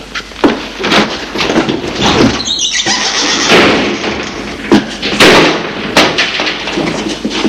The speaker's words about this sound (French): Sa mère le voit et va fermer les volets.